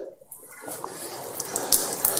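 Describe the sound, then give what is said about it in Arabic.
Running water pouring over a hand during ablution, a steady splashing wash with small spattering bursts, fairly quiet and continuous. “لكن لو غسلت يدي بهذه الطريقة مثلا”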